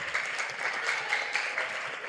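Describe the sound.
Audience applause at a school gincana contest, given in honor of a teacher: dense, steady clapping from many hands that holds at a fairly even moderate level for the whole stretch, with no talking over it.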